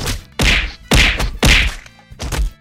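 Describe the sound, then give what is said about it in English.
Someone is struck with hard whacks, four heavy thwacking hits in an uneven rhythm with short gaps between them and no voices. “Stop! Stop! Why are you hitting me? Please stop!”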